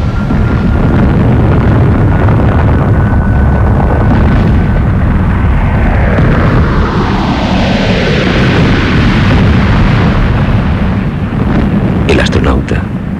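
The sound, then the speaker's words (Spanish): Science-fiction spaceship sound effect of hatches opening and weapons launching at high speed: a loud, unbroken rumbling roar with tones sweeping through the middle and a cluster of sharp bursts near the end. “Algo hizo que la nave se estremeciera. Se abrieron unas compuertas. Salieron disparados a gran velocidad una serie de armas infernales.”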